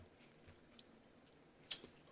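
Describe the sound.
Chewing on a sour gummy octopus candy, with soft, faint squishy mouth sounds and a few sharper clicks from biting. No voices are heard.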